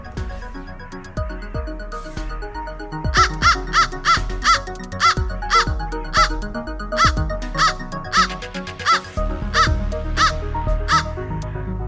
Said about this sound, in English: Crow. Crow.